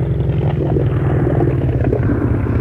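Boat engine running with a steady, low, throbbing rumble that holds an even level from start to end, with no voices over it.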